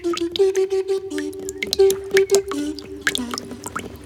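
Many drips land one after another in a small puddle, standing in for tears falling. They make bright, irregular plinks over a steady low tone.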